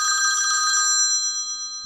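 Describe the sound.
A telephone rings with an electronic ringtone: high, steady tones with a quick warble that soften toward the end, heard alone.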